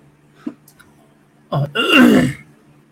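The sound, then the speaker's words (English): A person clears their throat after drinking lemon-lime soda, with something caught in it: a brief faint sound, then a loud, raspy, forceful clearing that lasts under a second. “I need something. I got something caught in my throat.”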